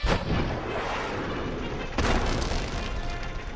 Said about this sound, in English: I'll switch to my missile launcher.